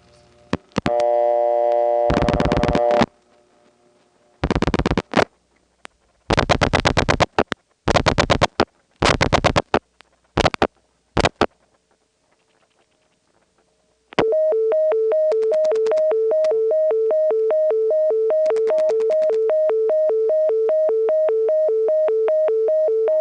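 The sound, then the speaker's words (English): Bell System Dimension PBX invalid-dialing tone reached on an outside call routed through an ESS office: several short bursts of clicking line noise, a brief silence, then a steady two-pitched tone that sounds without a break to the end. “the Dimension PBX, the Bell system introduced a new tone to the network. It was used within the PBX for invalid dialing sequences. On very rare occasions, you could get it from the outside, as in the following call, which goes through an ESS again.”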